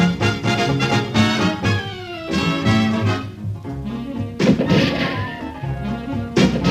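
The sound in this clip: Gunshot ricochet sound effects for a commercial: several sharp impacts spread across the stretch, some trailed by whining glides that fall in pitch, set against dense sustained tones.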